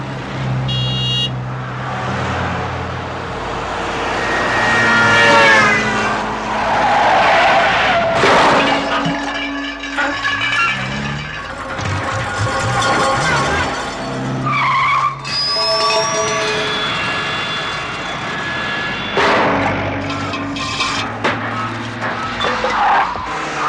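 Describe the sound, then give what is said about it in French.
Tires squeal and cars skid in a film car sequence, a loud, continuous stretch of screeching rubber and revving engines with sharp tonal squeals that rise and break off, and no voices over it. “Accrochez votre ceinture, on commence avec une danse de voiture.”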